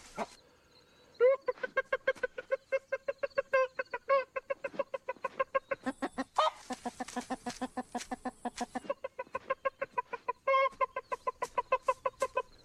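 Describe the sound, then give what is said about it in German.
A rooster clucks to call a hen over to food he has found, giving a long run of many quick, rhythmic clucks at a steady pace, with a short break partway through. “Main ritual he has is the mating dance, and how he gets a hen to come over is he lures her by making a sound when he finds a piece of grain or something.”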